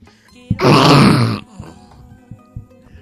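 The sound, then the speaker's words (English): A young child's voice imitates a polar bear with a loud, rough, gravelly growl lasting about a second, followed by a few soft breathy grunts. “That's a polar bear sound.”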